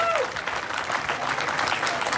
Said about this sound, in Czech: Ano, zaslouží si to potlesk.